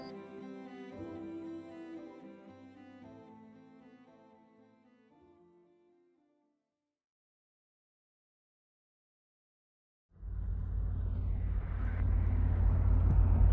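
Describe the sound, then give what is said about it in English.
Car driving on a backcountry road at five in the morning: after music fades out and a few seconds of silence, a loud, steady low rumble of engine and road noise sets in and holds to the end. “I'm driving down the road at the only time of day when I can really think on a on a backcountry road at five o'clock in the morning”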